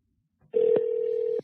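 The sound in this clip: A telephone line tone sounds as a call connects to the next caller: a single steady, level beep lasting just under a second, faint and alone.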